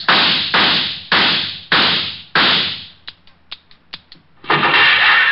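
Gunshots as a sound effect in a Richard Diamond detective radio drama: five loud, sharp bangs in a steady rhythm, each with a decaying tail. A few quieter clicks follow, then a burst of broad noise.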